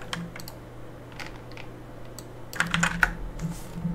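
Typing on a computer keyboard for a quick web search: light, irregular key clicks throughout, then a denser, louder flurry of strokes near the end, with no talking.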